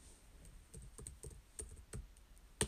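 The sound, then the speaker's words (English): Someone typing on a computer keyboard. The keystrokes are faint, irregular and many, ending with one sharper, louder click. “Just bear with me really quick. You're going to listen to me type just a little.”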